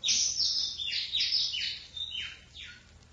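A bird chirps at a window, giving a quick run of several high, downward-sweeping chirps that fade slightly toward the end, with no other sounds.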